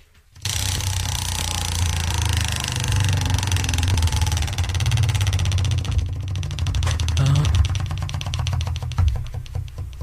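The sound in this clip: A bonus prize wheel spinning, its ratchet producing a rush of rapid clicks that grow distinct in the second half as a dense run of ticks over a broad, rumbling background noise.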